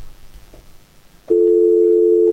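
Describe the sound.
A telephone line tone as a call is picked up. After a quiet stretch, a steady, loud, pure tone cuts in abruptly, holds one pitch for about a second and then stops.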